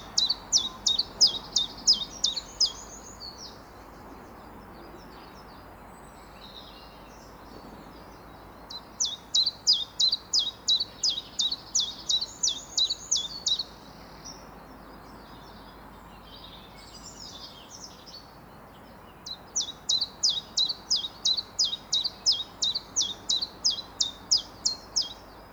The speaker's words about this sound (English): it might be quite difficult until you've got tuned into the exact kind of timbre of a chiff chaff to not quite know that it's a chiff chaff